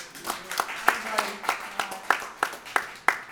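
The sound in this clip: A thin smattering of live audience applause, roughly ten sparse, evenly spaced claps in a steady rhythm rather than a full ovation.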